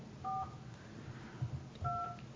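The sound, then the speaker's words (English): Telephone keypad dialing tones, dialed slowly: two clear dual-tone beeps separated by a long pause, with faint low thumps and handling noise between them. “I'm trying to dial slow.”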